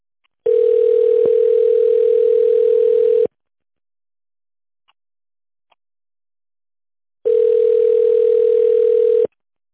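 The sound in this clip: A telephone ringback tone plays while a call is transferred to a secretary. Two long, steady mid-pitched tones are separated by a silent gap of about four seconds.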